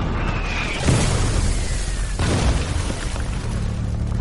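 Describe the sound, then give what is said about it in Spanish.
Artillery shells flying overhead and hitting their target: two descending whistles, each cut off by a heavy deep boom, over a continuous rumbling din of battle. “Connor escucha el sonido del proyectil sobrevolando su cabeza.”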